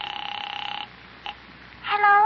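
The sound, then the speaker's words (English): A telephone being dialed: a faint, rapidly fluttering electronic tone that stops, then a single short beep, followed by another brief tonal burst. “Well, there's no use making a big thing out of this. I'll just make a casual phone call over there.”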